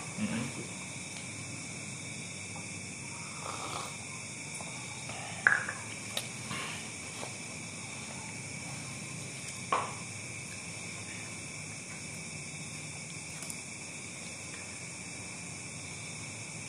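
Insects chirping in a continuous, high, shimmering drone that holds steady for the whole stretch, with a few faint clicks and knocks scattered through it.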